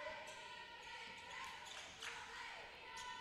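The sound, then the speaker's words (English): Basketball dribbled on the court by a player in blue during a women's college game, Southern Union against Central Georgia Tech; a few sharp bounces recur steadily over continuous gym crowd noise. “Titans dribbling on the left side of the floor, wearing all blue.”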